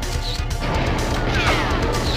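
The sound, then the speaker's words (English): Enemy gunfire in a video game mission, heard as a dense, continuous barrage of loud crashing, crackling bursts with no pause. “It still doesn't say mission complete, and people are shooting at me.”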